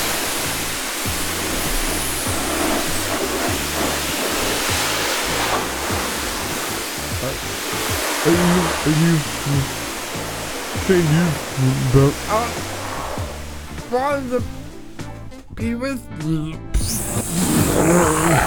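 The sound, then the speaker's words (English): A power washer blasts water at graffiti in a loud, steady hissing rush that fills the whole clip, with voices talking and shouting over it toward the end. “Shooting holes in the graffiti doesn't work. You need a stop. All right, power washer.”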